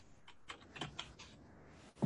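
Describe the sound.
Faint typing on a computer keyboard, several soft, irregular keystroke clicks with a slightly heavier tap near the end.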